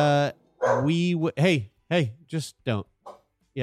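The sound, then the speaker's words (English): A guard dog barks and yips in a quick run of short, loud, harmonic calls, several stretched into whiny, tonal yelps, with brief gaps between them. “you're a very good guard dog. Good job. Good guarding. Yes, we're safe.”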